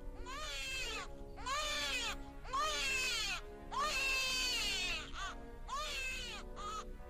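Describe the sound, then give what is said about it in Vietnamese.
A newborn baby cries in a series of drawn-out, high-pitched wails, each loud harmonic cry rising and falling, separated by brief gasping pauses and continuing throughout. “Không gian thoang thoảng đâu đó có tiếng trẻ con khóc, giống như là bị phá giấc. Cái tiếng trẻ sơ sinh vang lên đến khó chịu.”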